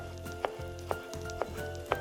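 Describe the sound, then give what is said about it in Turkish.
Garlic sizzles as it fries in a pan, a steady, crackling hiss broken by four regular, sharp clicks. “Sarımsağımızı ekledik. Birazcık pişiriyoruz.”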